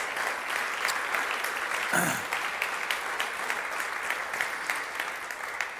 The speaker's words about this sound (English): So would you put your hands together? Come on, let's welcome the family here today.